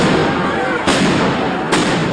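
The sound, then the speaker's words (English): Police fire tear gas canisters at a street protest, two sharp, loud bangs about a second apart that cut through a constant, dense roar of noise. “Police fired tear gas as people ran for cover.”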